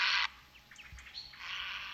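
A bird gives its best-known call in flight: a quick run of faint, high chirps over a soft background hiss.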